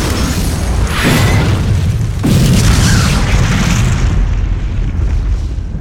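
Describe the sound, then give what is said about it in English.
A salvo of missiles explodes on a smoking pile of wreckage: two heavy booms land over a continuous, loud rumbling roar that eases slightly toward the end. “Roberto launched one last salvo of missiles at the smoking pile of wreckage.”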